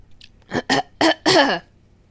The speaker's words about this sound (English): Excuse me. I just choked.